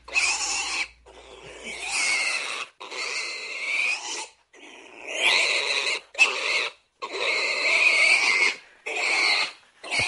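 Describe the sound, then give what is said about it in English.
Pig squealing sound effect: shrill, high, loud squeals that come in many separate bursts of varying length, divided by short gaps of silence. “What am I going to do with this pig sound that I got?”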